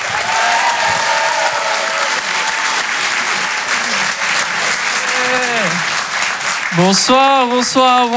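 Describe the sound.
Applause from a comedy club audience welcoming a comedian onto the stage: steady, dense clapping throughout, with a few cheering voices rising above it near the end.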